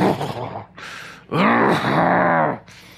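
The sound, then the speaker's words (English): A voice imitates a horse snorting. Breathy, noisy blasts surround a long, strained, groaning vocal tone that lasts about a second, with no talk in between. “The word for groaning is like the sound a horse makes when it snorts.”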